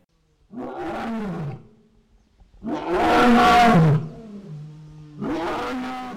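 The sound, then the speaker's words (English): A just-fed, satisfied lion roars from inside its cage at a big cat refuge, giving three deep, drawn-out roars separated by brief gaps. The middle roar is the loudest and longest, and the first trails off lower in pitch. “That's the sound of a just-fed, satisfied lion at Turpentine Creek, caroling from inside its cage at the refuge.”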